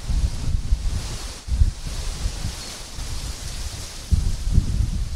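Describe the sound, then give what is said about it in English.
Wind blowing hard through giant front-yard trees during a bad storm: a broad, rushing roar of leaves and gusts, with a few stronger low bursts rising out of a constant hiss. “I got some giant, trees in my front yard, and they're blowing in the wind, but they're not super crazy as of yet.”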